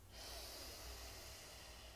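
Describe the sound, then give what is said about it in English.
A big, deep breath in during a stage-presence breathing exercise, one steady, airy inhalation that hisses softly and quietly for the whole two seconds. “stage presence breathing exercise. Big deep breath in.”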